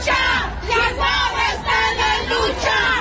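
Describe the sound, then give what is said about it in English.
Mothers and activists protesting in the streets of Mexico City raise a loud crowd chant in steady, rhythmic waves of shouting voices that swell and ebb several times throughout. “In what's become something of a tradition, mothers and activists took to the streets of Mexico City yesterday.”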